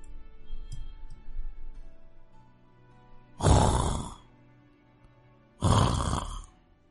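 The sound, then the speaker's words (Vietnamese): Snoring starts soft with faint breathy sounds, then grows into two loud, rasping snores separated by a quiet pause. “Tiếng ngáy nhẹ nhẹ truyền đến, dần biến thành tiếng o o, đinh tai nhức óc.”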